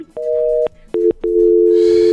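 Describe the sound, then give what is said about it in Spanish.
Telephone tones after a caller's line drops mid-call: short, flat electronic beeps at two different pitches with brief gaps, then one long steady tone. A soft hiss joins near the end. “Se le cortó la llamada”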